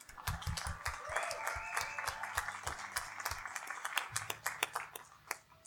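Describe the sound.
Audience applause for a writer being introduced at a reading event: many overlapping hand claps in a dense, steady patter that carries on throughout.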